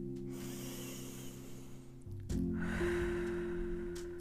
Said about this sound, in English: go ahead and open your eyes if they're closed. Take in 3 more deep breaths. Another breath.